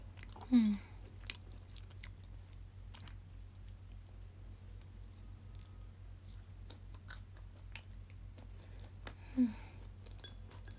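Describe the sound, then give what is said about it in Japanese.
Faint chewing of edamame, with soft, scattered crunchy clicks over a low steady hum. Two louder, crisper bites stand out, one near the start and one near the end. “枝豆美味しい、おばあちゃんありがとう。”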